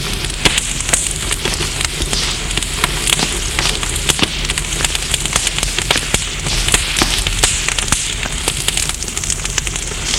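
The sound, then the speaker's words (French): A spreading, growing fire crackles steadily, with many sharp pops and snaps scattered over a continuous rushing hiss for about ten seconds. No voices. “Dans ce temps, le feu prend de l'ampleur.”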